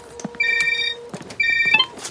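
A telephone rings in two short bursts of bright, trilling electronic tones, with a brief gap between them and no talking.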